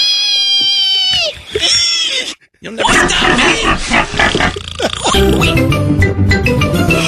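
A pig rooting up roses in a yard squeals shrilly with strong, piercing harmonics, then gives way to loud, rough grunting and snorting noise that lasts to the end.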